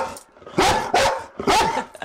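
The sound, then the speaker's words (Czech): Three sharp, loud barks from a brown Chesapeake Bay Retriever trained to search for poisoned baits. The barks are unevenly spaced and heard alone, without talk. “A jsou tady s námi i psí pomocníci. Co to je za plemeno, krásné hněde? Jsou to dva Chesapeake Bay Retrievři, Vicky a Irbis.”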